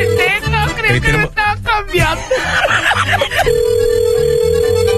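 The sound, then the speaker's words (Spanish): A telephone rings with a steady, even electronic tone that sounds briefly at the start and again without a break through the last second and a half. Between the rings, people talk and shout over one another. “no es el teléfono de Mario?”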